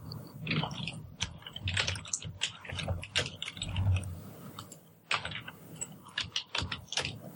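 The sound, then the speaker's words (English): Fingers type on a computer keyboard in quick, irregular bursts of clicks, fairly quiet, with a short pause partway through before the tapping resumes. “So due to how bad my spelling is, I accidentally typed in Minnesota.”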